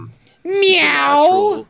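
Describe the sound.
A person's voice imitates a cat meowing, one loud, drawn-out nasal mew with a wavering pitch, sounded after a brief faint murmur.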